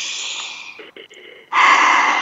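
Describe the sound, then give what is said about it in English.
A deep breath taken together during a guided group pause: a long, airy inhale, a brief hush, then a louder, fuller exhale. “Well, let's take a breath together.”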